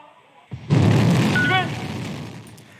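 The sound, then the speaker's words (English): A Chinese rocket blasts off into orbit carrying three astronauts to the country's new space station. A low thump is followed by a loud, broad, sustained roar that slowly fades. “A rocket blasted into orbit with three astronauts on board.”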